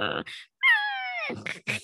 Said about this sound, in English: You may hear some light cat noises in the background